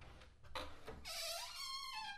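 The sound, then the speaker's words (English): A faint knock at a door in a radio drama: a couple of short, sharp raps, followed by a brighter, sustained tonal sound. “Then suddenly there came a knock at the door.”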